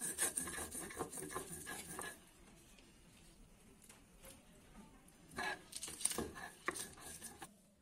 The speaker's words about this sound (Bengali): এবার জিরা আদা লঙ্কা এই মশলাগুলোকে বেটে নেব